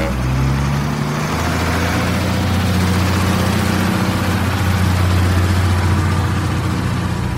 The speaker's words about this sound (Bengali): অর্জুনরা উঠতেই বাস ছেড়ে দিল।